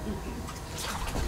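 Water splashes softly during a little one's bath, with small sloshes and drips. The sounds are fairly quiet and brief.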